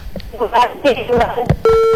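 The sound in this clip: A phone-in call to a radio show cuts off, and a steady, continuous electronic line tone starts abruptly after a short stretch of broken, choppy speech.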